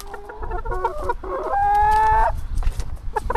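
Hens cluck at a backyard chicken coop in a family-house garden. A few short harmonic clucks lead into one longer, drawn-out call, followed by scattered quicker clucks. No voices.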